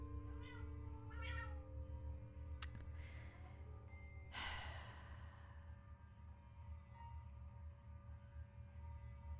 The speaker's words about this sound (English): That is my cat. She refuses to let us clip her nails, so she hurts herself when she scratches herself.